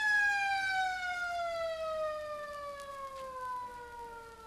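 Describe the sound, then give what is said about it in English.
A siren at a homecoming parade sounds one long, steady tone with strong harmonics that glides gradually downward in pitch across the whole stretch, loud and alone with no talk. “Siren. I remember. It's the homecoming parade.”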